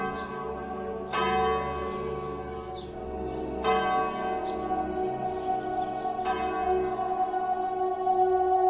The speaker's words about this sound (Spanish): en el estrépito y el clamor de las campanas.